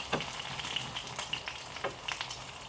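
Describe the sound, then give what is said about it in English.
Scrambled eggs fry in a pan with a faint, steady sizzle and a few soft stirring scrapes. “Okay, you know what? I guess we're making scrambled eggs today.”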